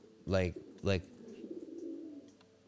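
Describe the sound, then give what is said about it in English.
A bird cooing indoors after hopping onto a computer: two loud, throaty, harmonic calls in quick succession, followed by a softer, lower murmuring warble that fades out. “Oh, you hear the birds”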